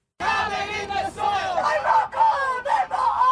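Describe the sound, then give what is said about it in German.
Demonstrators shout in unison at a climate protest in smoke-hazed Sydney during the bushfires, a crowd of many raised voices chanting in loud, rhythmic bursts with short gaps between phrases. “Kein Öl und keine Kohle mehr, stoppt den CO2-Ausstoß, rufen Demonstranten im rauchverhangenen Sydney.”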